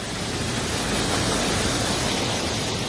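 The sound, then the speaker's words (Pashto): Rushing water flows from a very cold, clear spring set among green gardens, a dense continuous hiss that holds steady without breaks or voices. “د شنو باغونو پامینس کې د خورا یخي پاکي او سپيني وبو پلرولو مشهور د مزار بابا په نوم چینه هر جمعه د سلګونو سیلانیانو کوربه وي”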